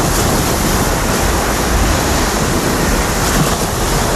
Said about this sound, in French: Le bruit de la mer et du ramassage donc des déchets sur la plage de la réserve de Beauguillot